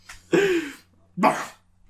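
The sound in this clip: A voice imitating a cough for a duke character in a fantasy roleplay game: two short, harsh, voiced bursts, the first with a falling tone, separated by a brief pause.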